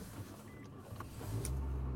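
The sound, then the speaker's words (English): Inside a fancy car being driven: a low, steady road rumble with brief faint whirs, growing louder and fuller in the second half. “And I am driving home. In case you couldn't tell, I'm in a fancy car today.”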